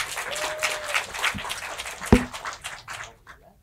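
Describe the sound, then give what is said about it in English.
Audience applause at a church service as a speaker is welcomed to give the message: steady, dense clapping that holds for a few seconds, then tapers off toward the end, with one sharp knock partway through. “Let's give him a hand.”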